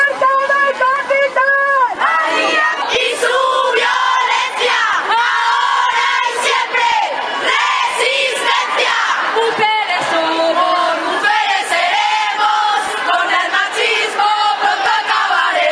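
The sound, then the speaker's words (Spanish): A loud crowd at a street demonstration against gender violence in Valencia, with many voices chanting and shouting together in rhythmic bursts and whoops, dense and continuous throughout. “este 25 de noviembre hemos estado en la manifestación celebrada en Valencia contra la violencia de género”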